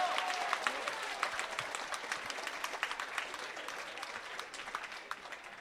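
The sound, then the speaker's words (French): Audience applause as an ovation for the teachers who coached a school prize, a dense, continuous patter of many hands clapping that holds steady for the whole stretch. “Donc, je vous propose de faire une ovation quand même à tous les professeurs qui ont coaché ce prix cette année. Bravo les profs!”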